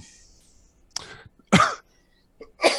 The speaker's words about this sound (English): just random coughing for no apparent reason. Probably choking on the water.